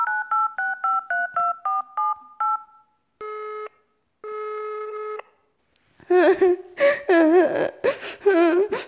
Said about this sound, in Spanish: Mejor le llamo a la psicóloga para que venga.